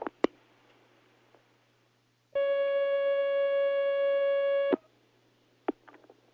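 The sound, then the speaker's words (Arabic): A telephone line tone as an incoming call connects, a single steady electronic tone lasting a couple of seconds, loud and unbroken, with faint clicks before and after it. “هناك مكالمة على الخط، تفضل.”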